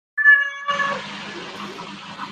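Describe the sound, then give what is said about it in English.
A cat meows once in a video game, a short, bright, tonal cry, followed by a dense, noisy wash of game sound that continues to the end. “That's the cat that's been messed by the orphans.”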